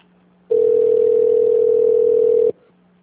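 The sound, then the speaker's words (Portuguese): A telephone line tone plays while a call is being transferred: one steady, mid-pitched tone holds for about two seconds, rising sharply out of a faint line hum and cutting off abruptly. “Aguarde um instante, estamos transferindo a sua ligação.”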